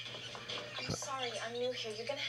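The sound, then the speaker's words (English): High-pitched screeching of a monkey in a pet store scene: several wavering squeals rising and falling over a steady low hum. “Oh my gosh, there's a monkey screaming.”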